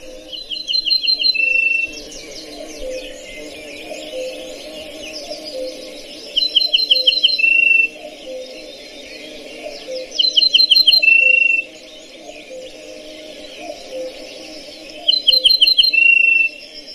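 Recorded birdsong is played back: four loud, high trilled phrases come at regular intervals over a steady bed of softer chirping and insect-like buzzing.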